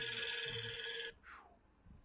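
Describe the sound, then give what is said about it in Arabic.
A telephone rings with an incoming call. A bright electronic tone with stacked harmonics holds steadily for about a second, then cuts off, followed by a brief, fainter falling chirp. “ناخد اتصال هاتفي.”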